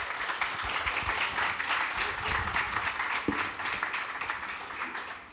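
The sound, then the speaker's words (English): Audience applause welcoming the Saltbush Country artists at a Tarnanthi 2023 exhibition event, a dense, steady wash of many hands clapping that holds evenly through the whole stretch with no talk over it. “So I'd just like to ask you to give a warm round of welcome to these guys.”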